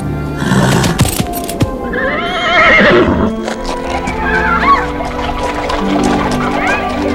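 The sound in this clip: A sluggish chestnut horse neighs as its rider spurs it along a snowy road: a high, wavering whinny rises out of a dense, busy mix that includes hoof clops and other layered sounds.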